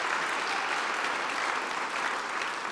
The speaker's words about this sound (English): Can we clap our hands on today? Let's make that just a little bit louder, just a little bit louder.